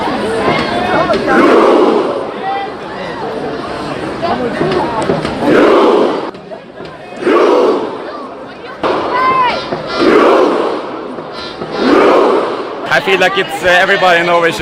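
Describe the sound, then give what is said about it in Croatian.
Thousands of fans in front of the palace cheer the Norwegian national team after a world championship. The loud roaring crowd swells in rhythmic waves of shouting and chanting throughout. “Norveški prijestolonasljednik udarao je u bubanj dok su hiljade navijača kao i igrači i stručni štab veslali pred palatom. Poslušajmo kako je to zvučalo”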